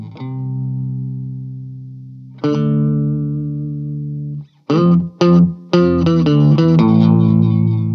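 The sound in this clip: A Hagstrom Viking hollow body guitar plays through a POG octave pedal: two long, ringing chords swell and sustain, then a quick run of bright plucked notes follows, all processed and with no voices.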